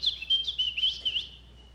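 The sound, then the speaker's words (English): Birdlike chirping imitated by a person's voice, a quick run of many short, high, whistled tweets in an uneven rhythm that stops after about a second and a half. “Think of two birds on a branch over here. And the one bird says to the other bird,”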